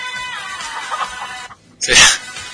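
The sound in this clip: Chicken clucking for farm-animal day: a busy run of scratchy calls, then a short gap and one loud, harsh squawk-like burst near the end.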